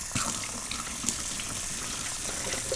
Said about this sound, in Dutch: Ik ga ook nog even een appel wassen, twee appels wassen.